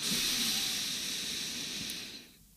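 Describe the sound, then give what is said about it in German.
A deep breath drawn in through the nose makes a steady, soft, breathy hiss lasting about two seconds before it fades out. “du holst einfach mal mit mir zusammen tief durch die Nase Luft”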